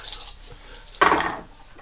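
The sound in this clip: Dice clatter across a table during a tabletop war game: one sharp rattling burst that quickly tails off over about half a second, fairly loud against a low background hiss.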